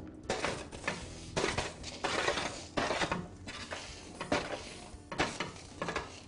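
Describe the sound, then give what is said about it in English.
Crisp, browned oven-roasted snack pieces tipped into a bowl after baking for about 30 minutes, making repeated rattling, clattering bursts with short pauses between pours. “I've removed it from the oven, and now I'm going to go ahead and add the seasoning. What I'd like to do is to just put that into a bowl.”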